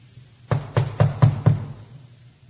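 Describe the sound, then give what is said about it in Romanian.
Someone knocks on a door at midnight: five firm, hollow knocks in an even rhythm, each a dull thud with a short decay, followed by quiet. “Vezi că bate cineva. Cine bate la miezul nopții? Cine e acolo?”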